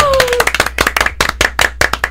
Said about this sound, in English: Wow, we got a golf clap.